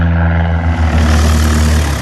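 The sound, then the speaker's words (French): Loud, steady engine drone of a small propeller aircraft at takeoff for a short flight, a rich low harmonic hum that holds evenly without any talk. “Départ pour une demi-heure de vol entre le Gard et la Provence.”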